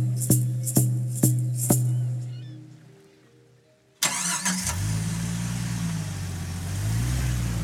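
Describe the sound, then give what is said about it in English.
A car drives a bumpy, remote logging road. Four sharp knocks ring over a low engine hum, which fades nearly to quiet before a loud, steady rumbling roar takes over for the rest. “Starting from the Comox Valley, we drive a bumpy 5 hours down a remote logging road.”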